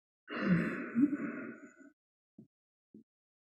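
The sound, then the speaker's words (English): One long, slow, deep exhale in a guided meditation breathing exercise, a soft breathy rush that fades out, followed by two faint, brief breath sounds. “Hold the breath out, hold it out there momentarily, and then breathe in as you come up, slow and steady. Repeat that again.”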